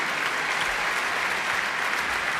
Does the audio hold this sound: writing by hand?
no